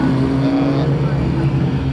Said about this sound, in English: Beautiful old Ferrari coming through here. Absolutely gorgeous, yeah.